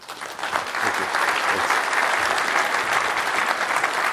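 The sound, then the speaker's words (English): Audience applause welcoming a former OSHA chief of staff to a safety presentation for brewery staff: a steady wash of many hands clapping that swells quickly and holds evenly for about four seconds. “Let's give him a hand and welcome Gabe.”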